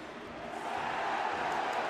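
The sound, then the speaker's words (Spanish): Football stadium crowd at a Portland versus New York City match demanding a yellow card after a foul, a steady, fairly faint roar without distinct peaks. “Tazuri Sladi comete una falta sobre Zubaric. El público pidiendo tarjeta amarilla.”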